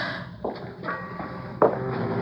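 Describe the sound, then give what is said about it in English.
Footsteps move carefully across the rotten wooden planking of a boathouse floor, a few slow, heavy thuds spaced apart over a steady background hum. “Okay, let's walk carefully to the far end of the boathouse.”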